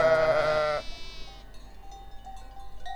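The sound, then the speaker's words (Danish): A sheep bleats once, loud and wavering, for just under a second, followed by near quiet with only faint background sound and no talking. “Gud, der står nogle får der. Hej med jer.”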